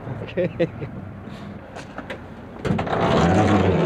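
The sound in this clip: An old hippie-driven van from BC has its engine warming up. A few faint knocks come first, then a steady, louder low engine rumble takes over for the last second or so.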